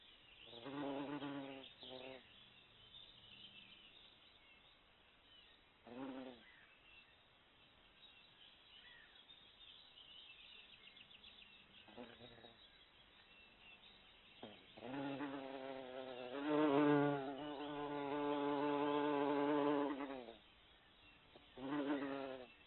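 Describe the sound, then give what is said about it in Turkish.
A bee buzzes in several droning bursts with quiet gaps between them; the longest, loudest stretch of humming comes near the end. “Bee. Bal arısı. Biene.”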